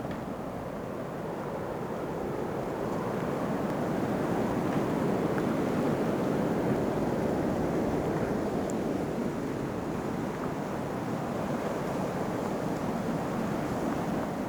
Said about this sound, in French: le son du vent incessant captive votre attention.